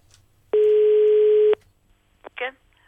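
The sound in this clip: A single steady telephone tone lasting about a second as a call is placed, followed after a pause by a couple of short clicks and a brief burst.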